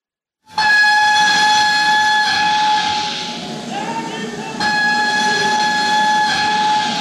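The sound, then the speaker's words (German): Steam train at a railway station in Paris in 1871: a loud, continuous rumbling hiss with a sustained, steady whistle tone that drops out briefly midway and then returns. “Paris, 19. März 1871, Bahnhof.”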